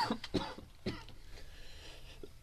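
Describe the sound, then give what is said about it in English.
A few short, fairly loud coughs in quick succession near the start, followed by a softer rough rasp that trails off, with no talking. “as we take a cough break”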